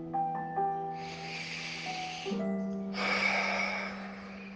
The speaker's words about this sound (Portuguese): Então, agora, vamos respirar profundamente.